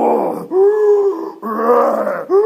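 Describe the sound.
A voice imitates the ocean's mighty, breathing surge seen from a cliff edge. It makes several long, drawn-out groaning swells, each rising and sinking with short gaps between.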